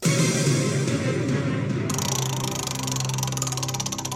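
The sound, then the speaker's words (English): A spinning prize wheel ticks in a rapid, steady stream of clicks over a low, continuous hum, the ticking growing sharper and more distinct in the second half. “let's spin the wheel for Sam”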